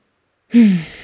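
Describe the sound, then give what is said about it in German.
A single deep breath let out as a sigh: a breathy rush with a faint voiced tone that slides down in pitch, heard alone after silence. “nimm gerne nochmal ein, zwei tiefe Atemzüge Und ich werde das Gleiche tun.”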